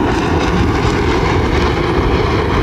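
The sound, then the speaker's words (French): Rafale fighter jets flying past near Laval, a loud, steady, roaring jet rumble that fills the whole clip without letting up. “Et voilà les rafales qui arrivent environ 5 minutes plus tard à notre droite, côté Laval, avec leur nez pointu. Attention aux oreilles.”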